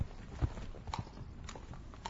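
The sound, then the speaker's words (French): Horse hooves striking the ground as a horse is ridden at a gallop or trot: a few irregular, fairly faint clip-clop hits with quiet gaps between them. “Pendant trois mois, Chanty passe sa journée avec les chevaux. À galoper, à trotter,”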